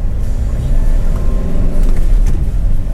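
A car driving into a hospital emergency entrance makes a steady low engine and road rumble that continues throughout, with slight swells in loudness.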